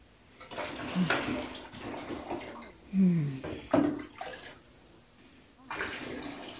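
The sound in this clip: Water rinsing a person off in a bathtub: splashing and pouring in uneven bursts, with several louder surges standing out over a steady wash of water.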